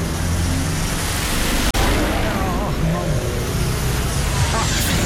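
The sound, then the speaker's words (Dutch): V8-engined cars driving past, a continuous broad roar of engine and road noise that holds at a fairly steady level for the whole stretch. “Dan hoor je even een paar V8'en voorbij komen.”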